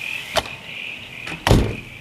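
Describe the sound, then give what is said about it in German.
A door is pulled shut, ending in a solid, low thud near the end. A couple of light clicks come before it, and a steady high chirping of insects continues throughout. “Lass die Tür lieber zumachen.”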